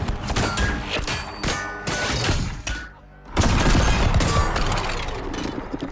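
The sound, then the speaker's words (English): Gunshots striking a circular metal shield: a dense, loud barrage of sharp cracks and harsh metallic crashes that briefly thins near the middle, then resumes at full force. “The leader and posse of trappers shoot at the Predator. The Predator blocks the shots with its circular metal shield.”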